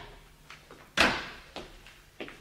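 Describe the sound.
A cupboard door being opened in a French radio drama, heard as one sharp wooden knock-like thud followed by a few lighter clacks and rattles, with faint handling noises before it.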